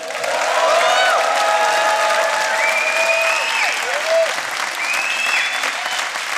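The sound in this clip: A live comedy audience in a Canterbury theatre applauds as the host comes on stage. The clapping is loud and continuous, with several high whistles and cheers sliding above it throughout.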